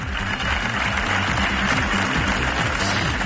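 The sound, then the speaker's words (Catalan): Steady applause follows a minute of silence outside Tarragona City Hall, held in mourning for three children who drowned. The dense, unbroken clapping stays loud throughout. “És el so dels aplaudiments que han seguit el minut de silenci que s'ha fet aquest matí a les portes de l'Ajuntament de Tarragona en senyal de dol per la mort de tres menors ofegats a la platja de la Rabassada.”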